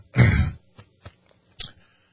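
Throat clearing: one loud, rough burst lasting about a third of a second, then a few much fainter, short rasps with quiet gaps between them.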